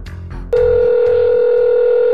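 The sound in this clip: A telephone dial tone on a recorded phone call cuts in abruptly after a brief low murmur and holds as a loud, steady, unbroken hum to the end.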